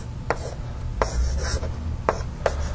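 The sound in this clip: Someone writes on a board while drawing a diagram: a few sharp taps mixed with soft scratchy strokes, faint and without talk.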